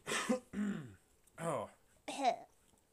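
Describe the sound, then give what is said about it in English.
Throat clearing: four short, rough voiced bursts in quick succession with no words, the second and fourth slightly louder. “clear my voice, sorry”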